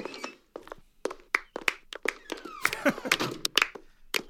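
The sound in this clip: Sparse audience clapping for a guest speaker at a Junior Achievers event: many separate, irregular handclaps with gaps of silence between them rather than a full roar.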